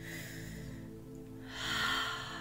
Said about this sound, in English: let's take a nice deep breath.